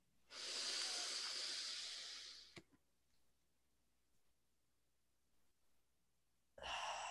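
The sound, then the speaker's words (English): A person takes a deep breath in during a guided breathing exercise: one long, loud, airy inhale that tapers off after about two seconds, followed by near silence and the start of another breath. “So let's breathe. Okay. We're going to inhale, take a deep hold inhale.”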